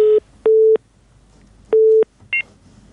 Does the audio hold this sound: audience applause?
no

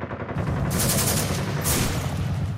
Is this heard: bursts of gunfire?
yes

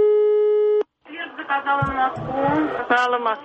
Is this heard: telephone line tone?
yes

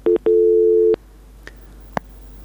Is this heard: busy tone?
yes

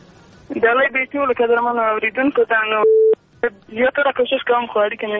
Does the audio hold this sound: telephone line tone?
yes

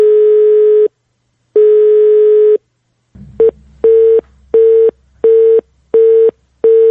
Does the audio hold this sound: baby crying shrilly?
no

